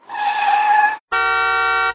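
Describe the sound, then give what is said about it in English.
Cars in road traffic: a harsh tyre skid screeches for about a second, then after a brief gap a car horn blasts once, loud and steady. “He ran across the road, between all the cars.”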